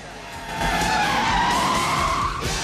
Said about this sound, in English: He swerves dangerously at high speed towards a police station and spins the car round into a parking space.